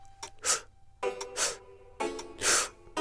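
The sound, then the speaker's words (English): A deep inhale is taken in three short, sharp increments during a breathing exercise at a theater. It sounds like three loud, breathy gasps, roughly evenly spaced. “We begin by inhaling a deep breath, but in three short increments, like so.”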